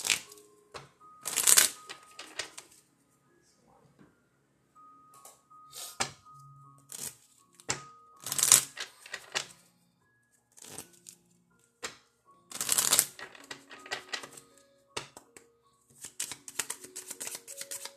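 Cards being shuffled for a divination card reading: several loud, crisp riffling bursts separated by quieter taps, slides and handling of the deck, with no voices.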